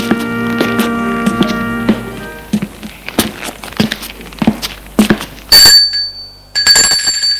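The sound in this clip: A doorbell rings at the door of a flat in an apartment building: two bright, ringing tonal bursts close together near the end, after a stretch of soft taps and clicks.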